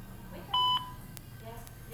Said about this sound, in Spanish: Si desea, deje su mensaje en la casilla de voz.